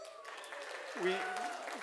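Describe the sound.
Soft audience applause during a church sermon, a steady patter of many hands with a voice talking over it, quiet throughout.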